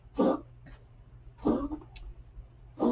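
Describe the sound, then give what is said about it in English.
Harsh coughing from an old dog with COPD: a few rough, breathy bursts separated by quieter pauses, over a low, steady hum. “Sorry, that's my dog. This doggy COPD because he's old.”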